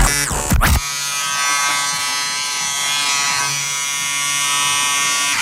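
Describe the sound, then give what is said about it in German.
An electric shaver buzzes loudly and steadily for several seconds with a bright, even electric tone. A brief whooshing sweep comes just before it. “Jetzt wird rasiert.”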